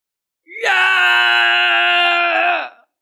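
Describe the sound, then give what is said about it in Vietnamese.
A badly wounded man lets out a sustained, bestial roar, like a wild beast. The single loud cry holds a steady, strained pitch for about two seconds before cutting off, heard alone. “Thác Cổ Ngự Long gầm như dã thú rồi giãy giụa từ mặt đất mà bò lên”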